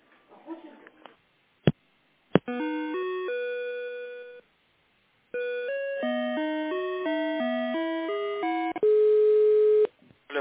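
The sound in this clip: Electronic telephone line tones sound while a call is being transferred. A few sharp clicks give way to stepped, melodic beeping phrases with a short silent gap between them, ending in a steady held tone.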